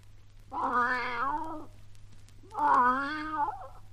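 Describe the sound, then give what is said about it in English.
A cat meows twice: two drawn-out, clear, fairly loud cries of similar length separated by a short pause, over a faint steady low hum. “He's my cat.”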